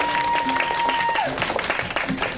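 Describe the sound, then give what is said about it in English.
Audience applause at a speaking event on financial literacy, a dense, steady burst of clapping with a thin whistle-like tone early on and voices mixed in. “round of applause, guys.”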